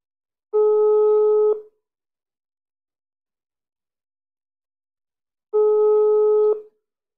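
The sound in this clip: Telephone ringing tone after a call is dialled: two steady, mid-pitched tone bursts of about a second each, separated by a long silent gap, with no talk.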